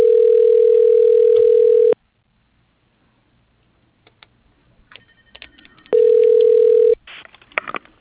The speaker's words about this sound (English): press star. Dialing.